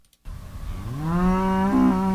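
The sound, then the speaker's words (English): A dairy cow moos in a pasture on a Lexington farm on a chilly spring morning. After a short silence comes one long, loud, low moo that swells in pitch and then holds steady. “It's a chilly spring morning at a Lexington dairy farm. Farmer Kenya Abraham walks through the pasture and calls to Marigold the cow.”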